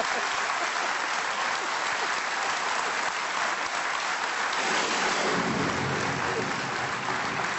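Heavy rain pouring down outside a studio, a dense, even patter and hiss that stays loud throughout and gains a fuller low rumble in its second half.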